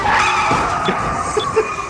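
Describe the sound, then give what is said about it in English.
A car merging onto a freeway gives a steady engine and road rumble with a sustained tonal whine. A few faint bumps sit in the continuous noise, with no talk. “another car ride, another opportunity to practice my DJ ramp-ups. Just got to navigate iTunes while merging onto the freeway.”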